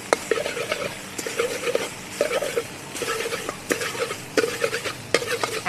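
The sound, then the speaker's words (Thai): A spatula scrapes and food sizzles as it is stir-fried in a wok, with regular rasping strokes about once a second over a steady hiss. “เราก็ผัดไปสักแป๊บนึง”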